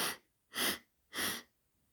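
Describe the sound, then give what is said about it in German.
Three deep, breathy inhalations during a guided breathing exercise, evenly spaced with short pauses of quiet between them and no talking. “Reinigender Atemzug, ein und aus. Und dreimal einatmen und halten und zieh.”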